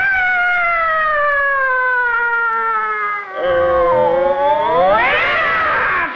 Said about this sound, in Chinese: 干嘛猫打架呀？